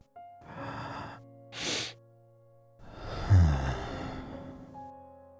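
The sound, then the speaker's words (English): A long, audible sigh out through the mouth during a guided breathing exercise: a short voiced sound and a quick breath in, then a drawn-out, breathy, voiced exhale of nearly two seconds, soft overall. “And now a long, audible sigh out through your mouth. Let the air fall out. Listen to mine.”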